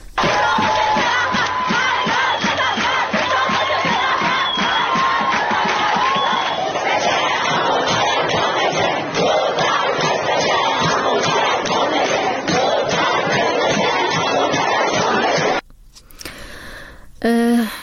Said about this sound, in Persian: صدای دانشجویان دختر الزهرا را هم بشنوید، چرا که دانشگاه الزهرا فقط دانشجوی دختر میپذیره.